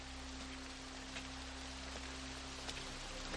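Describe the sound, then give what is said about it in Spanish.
Rain falling outdoors, a steady, even hiss of dense drops with faint scattered ticks of individual drops. It holds level throughout, with no voices. “se aleja bajo la lluvia.”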